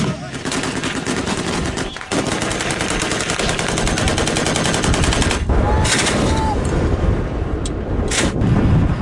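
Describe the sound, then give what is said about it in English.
Yemeni government forces fire at Houthi fighters, with dense, rapid bursts of gunshots rattling almost without pause. The loud, sustained shooting runs the whole time, with only brief dips between volleys. “Video footage released by Yemeni government forces backed by Saudi Arabia of them firing at Iran-aligned Houthi fighters in the country, verified by The Guardian.”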